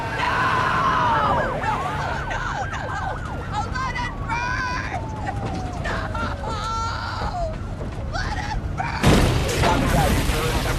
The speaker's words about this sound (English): And we're seeing all the fire trucks bombing down the road.